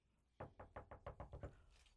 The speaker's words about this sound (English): It's not often we get a door knock in the radio studio